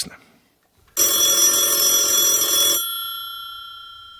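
A telephone rings on an outgoing call: one long, steady ring starts about a second in and then fades away. There are no voices.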